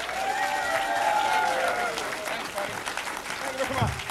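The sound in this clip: A comedy club audience applauds to welcome the headliner comedian with thick, steady clapping that thins toward the end while a man talks over it.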